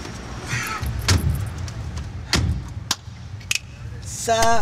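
A car being driven gives a steady low engine rumble, with a few sharp clicks and knocks over it and a brighter rattling burst at the very end.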